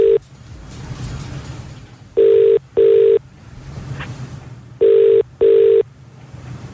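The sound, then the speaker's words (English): Telephone ringback through a handset on an outgoing call: two pairs of short, steady mid-pitched rings in a double-ring rhythm, separated by hissy line noise. “We're dialing.”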